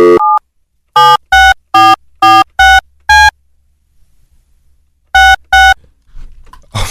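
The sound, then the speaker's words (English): Telephone dialing out, with a brief tone followed by a run of six short, bright key beeps, a pause, then two more beeps, the keypad tones loud and evenly spaced before a faint low rumble. “Hang on, I have to remember how to dial out from here.”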